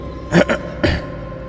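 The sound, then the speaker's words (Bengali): A man clears his throat: a gruff double rasp followed by a single shorter one, over a steady low background hiss. “তিনি গলা খাকিয়ে বললেন”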